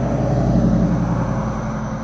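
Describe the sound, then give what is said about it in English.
Vehicles passing by outdoors make a steady low rumble and droning roar that fills the whole stretch without a break, with no voices heard. “Sorry for all the background noise. I actually got vehicles passing me”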